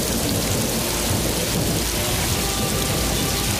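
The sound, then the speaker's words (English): Steady rain falls during a thunderstorm, a dense unbroken hiss, with low thunder rumbling underneath throughout. “That's the sound of a well-needed rain for our cropping season.”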